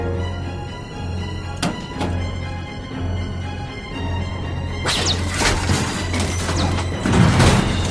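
A gunshot blasts open a cargo container aboard a spaceship: a sharp crack, then a burst of crashing, whooshing noise that builds to a low boom near the end. Earlier whip-like snaps cut across a steady low hum.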